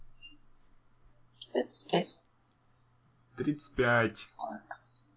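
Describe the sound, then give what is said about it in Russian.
A percentile die (D100) is rolled during a tabletop role-playing game, a brief burst of quick, light clicks as it clatters, followed by people talking. “И теперь кинь D100. Ну, процентный кубик.”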